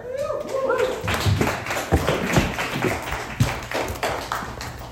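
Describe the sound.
Audience applause for a comedian being introduced at a comedy show: a dense wash of clapping with sharper hand hits and crowd voices mixed in, continuing for the whole clip.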